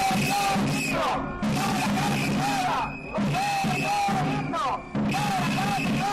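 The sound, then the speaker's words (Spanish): A crowd of union workers chants at a protest over a long-expired collective labour agreement, shouting loud phrases in repeated bursts with short pauses between them. “Este es el sonido de su última protesta.”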